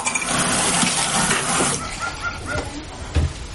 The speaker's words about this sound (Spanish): Se lava los dientes en el baño.